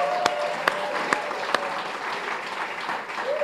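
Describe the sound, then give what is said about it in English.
An audience applauds as two state representatives come on stage for a panel, with steady, dense clapping throughout and a few sharp, louder claps popping out early on. “How about a big hand?”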